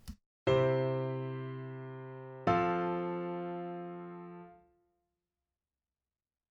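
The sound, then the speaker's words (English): Two struck chords in a four-voice progression with a direct parallel octave in the outer voices. Each chord has a sharp attack, then rings out and slowly fades; the second follows the first about two seconds later. “In this particular example, what's happening is that there is a direct parallel octave in the outer voices from the first to”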